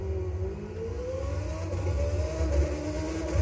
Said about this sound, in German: Digga, ich kaufe mir jetzt ein Fahrzeug. Den Red Bull. Ich mache mal Probefahrt. Mal sehen, ob er sich hier so anhört.